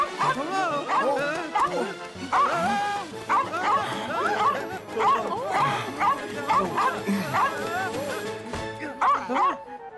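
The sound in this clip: A small lost dog yaps and whimpers in many quick, high-pitched barks and thin whines throughout, with people talking over it.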